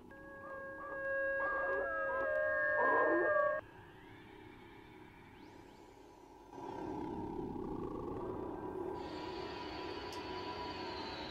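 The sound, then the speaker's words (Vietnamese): Two dogs howl and bark outside at night. Drawn-out tonal howls fill the first few seconds, then give way to a quieter, noisy background. “Lâu lâu bên ngoài kia, hai con chó lại cứ chu lên ông ổng.”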